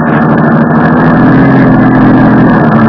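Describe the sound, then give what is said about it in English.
Car engine running as someone drives out to the burned ruins of a paint factory: a steady, unbroken low droning hum with a constant pitch throughout, with no voices. “I drove out to the charred ruins that had once been the Chantilly Murdoch paint factory”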